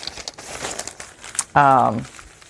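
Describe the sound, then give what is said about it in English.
A bunch of paper pages is folded by hand for bookbinding, giving dry crinkling and rustling that comes in several soft bursts, then a louder, fuller crackle near the end. “this is the part where you just sit down and you fold. There's really, no two ways about this. I used to mass fold. I used to grab, and you can do this too. You can grab a bunch of pages,”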